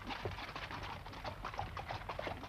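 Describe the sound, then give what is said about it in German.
Hooves clip-clop at a leisurely trot as a horse pulls a carriage and two saddle horses trot beside it, with many even, overlapping hoof beats forming a steady, moderately loud rhythm throughout. “Sundmann hatte den Kutschersitz bestiegen und fuhr in gemächlichem Trab heimwärts, während die beiden Reitpferde nebenher trotteten.”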